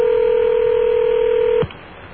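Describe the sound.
A telephone number being dialed for a call gives a loud, steady electronic keypad tone that holds evenly, then cuts off abruptly, leaving a faint hiss.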